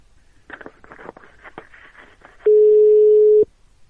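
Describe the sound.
Telephone busy tone after a call is hung up: a single steady, mid-pitched beep of about one second that cuts in sharply after a stretch of faint, crackly line noise.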